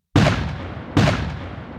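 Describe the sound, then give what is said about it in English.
Two loud, booming blasts of artillery fire from Confederate guns firing on advancing Federal lines in a battle. Each blast hits sharply and trails off in a long rumbling decay, with the second following under a second after the first. “Stonewall waits until the Federals are about 500 yards out, then unleashes his artillery on them, ripping holes in their lines.”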